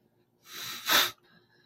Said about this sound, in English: Okay, pardon my... mucus.